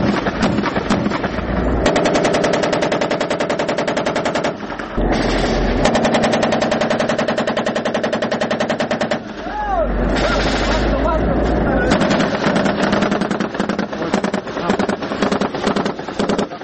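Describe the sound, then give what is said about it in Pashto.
Heavy gunfire exchanged between soldiers and armed Taliban fighters in a district battle, dense rapid bursts of automatic fire that run almost continuously, broken by a few short pauses. “د دواړو طرفونو څخه یو پر بل پریمانه ډزې کیږي ځکه خو سرتیری په خپل منځ کې خبرې نه اوري”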